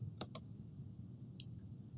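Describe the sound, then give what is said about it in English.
A computer mouse clicks a recalculate button in software: two quick faint clicks close together, then a single click about a second later, against a quiet hum. “We're going to scroll back to the left, and we'll click the recalculate button.”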